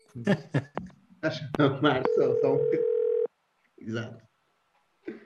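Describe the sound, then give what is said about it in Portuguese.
A steady telephone dial tone, heard as a single continuous mid-pitched hum lasting just over a second. It starts while a person is still talking, and more speech follows after it stops. “vamos então tentar que outra vez uma chamada telefónica, novamente aqui ao Tarroso Gomes”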